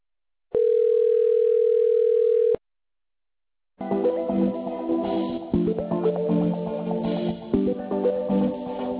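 Ringing tone on a phone line while a caller is transferred to a survey-service agent: one steady mid-pitched tone of about two seconds, then a short silence and a continuous, shifting tonal sound for the rest, with no voices.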